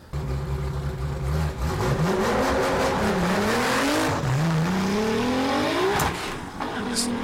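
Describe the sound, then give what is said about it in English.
A cut-down short-wheelbase Nissan Patrol GU with a 3.8 litre twin-turbo V6 from the GT-R roars through a half-mile acceleration run. The loud engine note climbs repeatedly, dropping back at each of several gear changes. “It came with the Nissan GDR, the VR38 DETT 3.8 litre twin turbo V6. Check this out and look at the speed. This is half mile”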